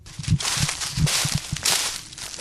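Footsteps crunch along the bank of the Fitzroy River, a steady run of many soft, low thuds with a light rustle.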